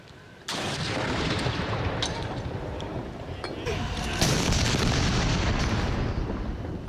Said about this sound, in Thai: กองทัพอากาศโดยกรมทหารต่อสู้อากาศยานรักษาพระองค์หน่วยบัญชาการอากาศโยธินทำการยิงสรุปหลวงเฉลิมพระเกียรติ21นัดณอุทยานการบินกองทัพอากาศ